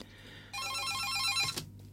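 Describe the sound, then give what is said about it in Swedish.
A telephone rings once in a short, bright burst of warbling electronic tone, sounding for about a second before cutting off, with no voices. “Tack för beviset att telefonen fungerar.”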